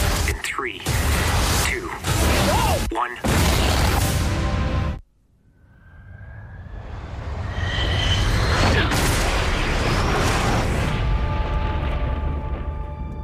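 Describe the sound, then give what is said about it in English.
Booming sound effects from the Top Gun: Maverick film trailer: loud, dense impacts and whooshes, then a sudden drop to near silence before a roaring swell builds back up and stays loud with sustained tones. “I am going to now play you the trailer for Top Gun Maverick to get you in the mood to hear a quick review about this awesome film. Here we go.”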